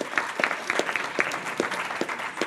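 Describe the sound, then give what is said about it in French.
An audience applauds presenters after a series of short talks. The clapping is moderately loud, with distinct individual claps standing out in a loose, uneven rhythm that continues throughout. “On va vous demander même de les applaudir parce que franchement, ils ont fait un exercice.”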